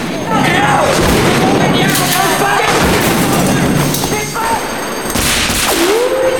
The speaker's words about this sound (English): On the next floor, they find Julian shooting at more coppers.